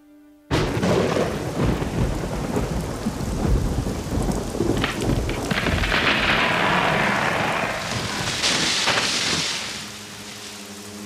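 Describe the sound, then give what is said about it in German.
Thunder and heavy rain break out in a violent storm as lightning strikes a chestnut tree. A sudden loud onset leads into a sustained, roaring wash of rain and rumbling for about ten seconds, easing slightly near the end. “Bevor um 7:30 dann der Blitz einschlägt in die Kastanie und der wahnsinnige Wind tut ein Übriges, reißt diesen Mordsast ab.”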